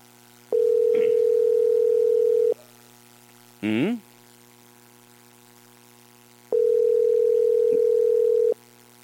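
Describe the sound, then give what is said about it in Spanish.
A telephone line gives a busy-sounding tone: two long, steady, mid-pitched beeps of about two seconds each, separated by a long silence that contains a brief voice fragment. “Mira, está como si estuviera ocupado.”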